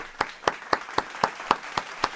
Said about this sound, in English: I need to see the standard clap.